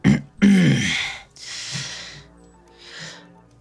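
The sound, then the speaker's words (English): A woman clears her throat with two harsh, rasping bursts, the second longer and lower. A softer breathy rustle follows. “McKay finally clears her throat”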